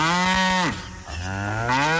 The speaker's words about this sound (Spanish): por acá tengo la vaquita